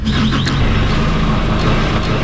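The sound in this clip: Forklift engine running as it lifts a 400 kg pallet of barley up into a truck: a loud, steady low mechanical drone with a constant hum, heard alone with no talk.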